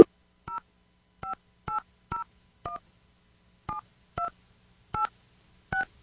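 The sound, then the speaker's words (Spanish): Touch-tone keypad beeps as a telephone number is dialed: nine short, clear two-tone beeps at uneven intervals, with no voices. “Marcando bien ese número telefónico. Vamos a ver si no responde.”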